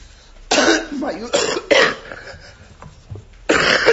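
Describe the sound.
Several harsh, explosive coughs mixed with throat clearing, each burst loud and abrupt, separated by short quieter pauses.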